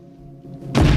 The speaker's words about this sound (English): A chair is suddenly knocked off its feet.